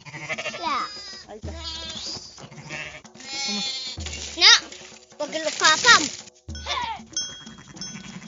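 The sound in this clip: Goats and sheep, including young ones, bleating on a farm in Traslasierra: many wavering, quavering cries, some high and thin, overlapping with people talking nearby.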